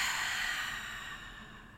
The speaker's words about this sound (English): Take a big, noisy breath in now. And exhale.